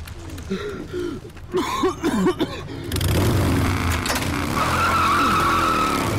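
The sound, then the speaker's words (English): Motorbikes pull up in an alley. After a quieter, uneven opening, loud engine noise swells in around the midpoint and holds as a steady roar with a wavering pitch. “The bikes pull up around the corner. The thugs walk their bikes toward the end of the alley.”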